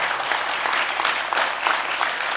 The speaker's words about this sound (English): Let's give God a great big hand clap.